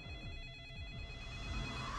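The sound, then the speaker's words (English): A telephone rings in a horror movie, its steady electronic ring sounding throughout the brief clip over a low background. “In every horror movie, there is a phone waiting to ring.”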